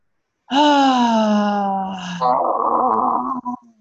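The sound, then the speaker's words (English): During a guided breathing exercise, a deep voiced exhale through the mouth: a sustained open 'ah' tone sinks slowly in pitch, then turns rougher and breathier before it stops. “Breathe it out through your mouth. It can make a sound.”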